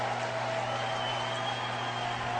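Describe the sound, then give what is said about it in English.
Steady roar of a big crowd of Union Knight supporters at a football game, a dense, even wash of noise that holds without pause under a faint low hum. “And a big crowd of Union Knight supporters below us here. They love every minute of it.”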